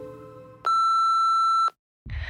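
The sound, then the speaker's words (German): A telephone beeping: one loud, steady, high electronic tone holds for about a second and cuts off sharply, followed by a brief silence and then a burst of noisy sound. “Du kannst dein Telefon nicht einfach ausmachen, bloß weil Sonntag ist. Das interessiert mich nicht. Geh ran.”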